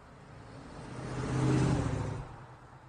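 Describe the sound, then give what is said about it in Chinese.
A car accelerates as the driver presses harder on the gas. The engine hum swells to a peak midway, then eases off, with no speech. “李思琪踩油门的力道加大了许多。”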